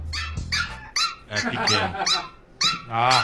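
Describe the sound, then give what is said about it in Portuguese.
A pinscher dog barks in a rapid series of sharp, high-pitched yaps mixed with a few lower growling barks, loud and continuous throughout. “Um pincher. É, olha aí, um pincher.”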